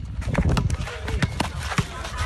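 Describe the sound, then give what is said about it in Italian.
Boys playing basketball in Castel Volturno, with sharp ball bounces and quick running footsteps on the court in an uneven, busy patter that continues throughout. “Quanto rumore fa la passione? O solo la voglia di correre, palleggiare, tirare verso il canestro?”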